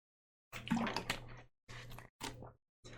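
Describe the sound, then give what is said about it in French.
Drinking a sip of water produces a few short, wet gulping and swallowing bursts separated by brief silences, moderately loud and with no talk over them. “Excusez-moi, je bois un petit coup d'eau.”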